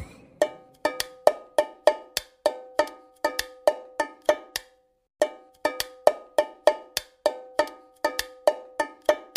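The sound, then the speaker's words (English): Someone drums a rhythm on an empty aluminum can taken from the recycling bin, producing many sharp, ringing metallic taps in a quick repeating pattern, with a brief pause midway and no voices. “What was I just drumming on? It was something that I took out of the recycling bin. And the answer is an aluminum can.”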